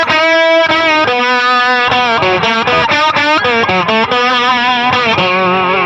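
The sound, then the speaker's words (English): Slide guitar run through the red side of an overdrive pedal, its distorted, sustained notes gliding smoothly between pitches in a loud, continuous phrase of many notes with no talking. “Like that's a great slide sound.”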